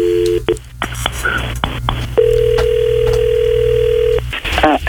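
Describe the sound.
A telephone call is placed: a quick run of touch-tone dialing beeps, then a long, steady ringing tone over a low background hum, with brief voices at the end.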